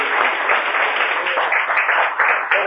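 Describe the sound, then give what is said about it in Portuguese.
A church audience claps together in response to a call for applause, a loud, dense and steady roar of hands that holds evenly from start to finish, with voices faintly mixed in. “Uma salva de palmas para Jesus.”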